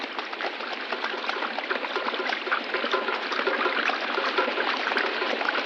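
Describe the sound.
A creek flowing at the eastern boundary of a farm, heard as a steady, continuous rushing and trickling of water. It stays at a fairly even level for the whole clip, with no voices.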